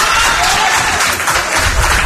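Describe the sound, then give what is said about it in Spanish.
Audience applause at a town council session: dense, even clapping from many people fills the whole stretch at a steady loudness. “lo que ha provocado aplausos entre el público asistente”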